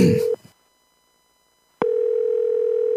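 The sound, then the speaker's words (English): A steady telephone tone sounds as a number is dialed to a hotel. It cuts off after a moment, leaving a short silence, then the same loud, even tone returns and holds. “I'll dial the number now.”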